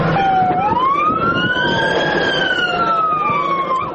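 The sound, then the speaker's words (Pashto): An ambulance siren in Lashkar Gah, Helmand, wails loudly and continuously, its pitch sweeping up and down in long smooth glides with no voices over it. “د امبولانس د لشکرګا شر د عجلو پیښو روغتون ایمرجنسی ته د دوشنبه په ورځ د ندالی ولسوالۍ د لوی منده څخه یو ماشوم چې پر مین خطرې دی راوړ”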